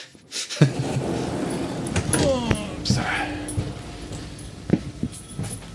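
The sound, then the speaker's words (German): Keys jangling as a key is taken out to switch off a main power switch: a few light metallic clinks and rattles, scattered unevenly over several seconds. “So. Jetzt haben wir auch einen Schlüssel. Klimper, klimper, klimper.”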